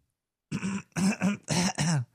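Throat clearing comes as a few short, voiced, rasping bursts in quick succession after a brief silence, fairly loud and alone.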